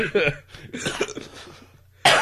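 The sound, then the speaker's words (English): Harsh coughing from people who are choking, with a loud burst at the start, rougher throaty hacking and breathy sounds through the middle, and another loud coughing fit at the end. “we're choking to death.”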